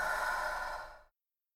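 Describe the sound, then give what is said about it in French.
Breath pushed out through an open mouth during a breathing meditation: one steady, airy rush lasting about a second that tapers off into silence, with no talk. “je vous propose d'ouvrir la bouche et de prendre une inspiration par ce deuxième canal, puis d'expirer l'air.”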